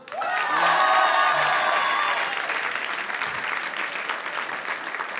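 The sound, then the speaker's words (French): A concert audience applauds the double bass player: loud, dense clapping from many hands that eases slightly after about two seconds and then carries on steadily. “Fred Bass, là, qui fait la contrebasse, qui est derrière, qu'on peut applaudir”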